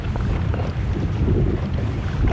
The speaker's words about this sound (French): on est sur ton bateau, on est parti en pêche